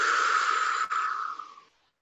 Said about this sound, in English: Taking a big breath in through your nose. Out through your mouth.